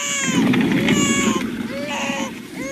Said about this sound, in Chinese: 哎呀，哭哭，你只晓得哭，到你姐姐那儿去。